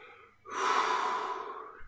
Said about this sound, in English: Just exhaling